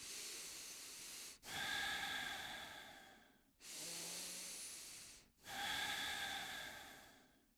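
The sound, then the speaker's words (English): Four long, airy deep breaths follow one another with short gaps between them, each a soft, steady hiss of moving air, fairly faint and with no talk. “Okay, now I have switched on the self-healing capabilities of my body by taking multiple deep breaths,”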